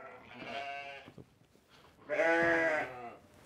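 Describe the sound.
Sheep and a lamb bleat in a stall: two loud, wavering bleats separated by a short pause, with faint shuffling between them.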